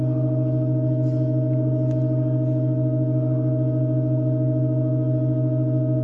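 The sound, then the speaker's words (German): A pipe organ sustains one steady, unchanging chord from a piece played extremely slowly, its keys held down by weights, with pipes added or removed for each new section; the tone is dense and constant throughout. “Und für jeden weiteren Teil des Stücks werden entweder Orgelpfeifen hinzugefügt oder entfernt. Hier mal ein kleiner Klangeindruck aus dem Jahr 2023.”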